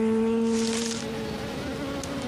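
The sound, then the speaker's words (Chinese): Honeybees laden with pollen fly back to their hive, making a steady, continuous low buzzing drone that holds an even pitch throughout. “外出的小蜜蜂飞回巢穴，满载的花粉降低了它们的飞行速度。”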